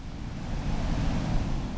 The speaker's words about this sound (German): Jacob Avotokpo blickt aufs Meer. Sein altes Dorf liegt darin und das neue vielleicht bald auch.